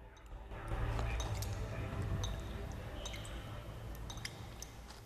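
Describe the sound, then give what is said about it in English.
Water runs over rocks and splashes in a boulder field on top of a glacier. A steady rushing wash is dotted with many sharp drips and small splashes, fairly loud throughout. “Water runs over rocks. Joe sits in the middle of a boulder field. Water splashes.”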